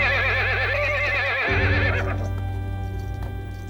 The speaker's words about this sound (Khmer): អូសេះល្អពិតជាសេះល្អកម្រឃើញមែននេះជាសេះចាងអ៊ូ